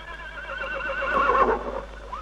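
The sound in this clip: A horse standing close by gives a single long neigh, a wavering, quavering whinny that stays moderately loud throughout and swells slightly toward the middle before tailing off, with no voices over it.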